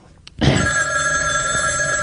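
A telephone bell rings after a brief quiet start, its bright, steady ring sustained loudly through to the end.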